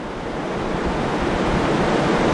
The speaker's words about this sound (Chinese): 头部队已经是离我们越来越近了，让我们一起来期待它今天接触到坝身之后碰撞产生的形态。现在可以看到部分潮水的先头部队已经漫上了滩涂